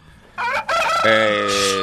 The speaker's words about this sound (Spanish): El gallo, primo, el gallo.